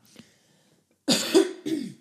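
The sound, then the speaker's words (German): Two coughs burst out after a faint earlier sound and a short silence: a harsh, rough first cough followed quickly by a slightly softer second one, both moderately loud and alone without talk. “Sorry, Hüsterken.”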